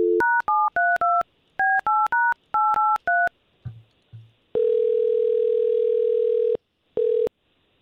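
Touch-tone keypad beeps dialing out to place a call, a quick run of many short paired-pitch tones, followed by a couple of low clicks and then a long, steady ringback tone with the start of a second ring.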